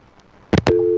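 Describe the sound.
Busy signal on a radio call-in line after the caller's connection dropped: a couple of sharp clicks, then a steady, low, continuous tone that holds to the end.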